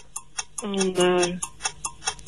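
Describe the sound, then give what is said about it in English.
A countdown timer on a quiz game ticks quickly and evenly, with light, crisp clicks and a short voiced sound in the middle. “5-second timer.”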